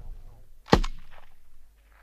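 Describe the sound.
A single sharp rifle shot firing live ammunition on a shooting range, aimed at a target at range 200. It is a loud, abrupt crack with a brief decaying tail and no talk over it.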